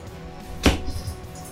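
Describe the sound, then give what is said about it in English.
An arrow is loosed from a short bow in a single sharp burst, a quick bright whoosh and thud standing alone over faint background hum. “We have some really cool music playing while that happens. So I'm going to shoot... Short bow.”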